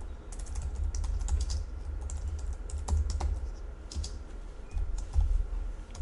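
Typing on a computer keyboard while names are entered into a programming example, a steady, fairly quiet patter of key clicks with small uneven pauses, with no talk.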